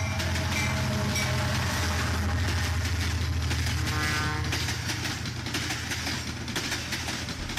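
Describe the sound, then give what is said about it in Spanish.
Train wheels clattering over rails, heard as a continuous rolling rumble with a steady rhythmic clickety-clack and metallic rattle, fairly quiet and even from start to finish, with no talk. “Estamos escuchando el sonido que emiten las ruedas de un tren al pasar por los raíles.”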